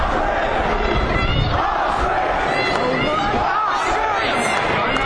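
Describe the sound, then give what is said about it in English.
Loud crowd noise with shouting, overlapping voices on Threadneedle Street as police with dogs hold the crowd back; a constant, agitated roar with no pause. “On Threadneedle Street, the police have got the dogs out, keeping the crowd back.”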